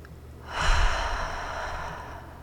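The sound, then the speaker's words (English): A single deep breath, drawn in and slowly let out, soft and airy with a gentle hiss, heard alone without talk. “Take a deep breath for me, okay? In and out.”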